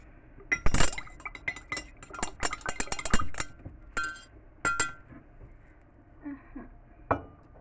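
Clinking of a mate cup and its metal straw: many quick, sharp, bright clinks in an irregular cluster, then a few fainter, sparser taps before one last clear clink.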